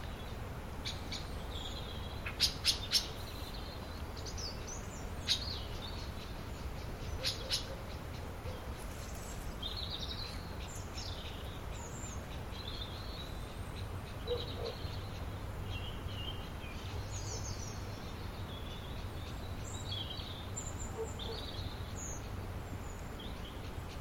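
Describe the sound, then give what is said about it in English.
A blackbird gives an alarm call: a few sharp, clicking chinks come early, with another isolated call later, over a steady backdrop of other birds chirping. No voices are heard. “Blackbirds. Yeah, that's the alarm call, isn't it?”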